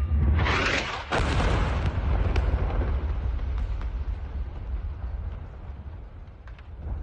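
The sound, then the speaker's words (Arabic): Missile explosion from an airstrike in Choueifat, opposite Prince Talal's palace: a heavy blast with a second burst close behind, then a long, loud, rumbling roar that slowly fades. No voices. “غارة على شويفات. جماعة ضربي هلأ بشويفات بوجه قصر المير طلال بشويفات. هلأ نزل الصاروخ قدامي أنا وماري.”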